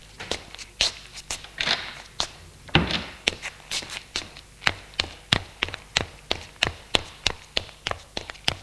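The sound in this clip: Footsteps going down a flight of stairs: many crisp, evenly spaced taps in a steady walking rhythm, heard alone with no talk.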